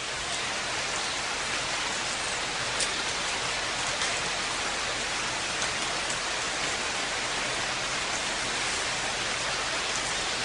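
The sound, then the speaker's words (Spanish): Heavy Amazon rainforest downpour fills the whole stretch with a dense, even hiss of rain on surfaces, loud and unbroken, with no voices. “Así suena una lluvia amazónica.”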